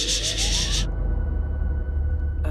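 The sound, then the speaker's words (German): Thunder in a storm: a deep, sustained low rumble runs throughout, overlaid by a broad hiss that cuts off after about a second, leaving the rumble alone until a short burst at the end; no talk. “Was ist das für ein Donner? Krass. Gewitter, das muss Gewitter sein.”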